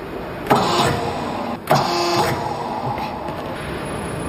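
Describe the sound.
An industrial rare-earth permanent magnet motor starting up, with two abrupt loud onsets about a second apart, each settling into a steady whirring drone over a constant high-pitched whine.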